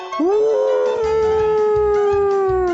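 A single wolf howls in a dark forest at night. The loud harmonic cry rises quickly, then holds a long, steady tone that falls slowly for over two seconds.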